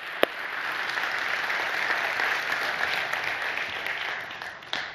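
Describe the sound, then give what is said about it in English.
An audience applauds to welcome new staff team members, with steady, dense clapping that holds at an even level throughout, plus a couple of sharper, louder claps near the start and end. “So listen, you give these guys a hand. Welcome to our staff team, please.”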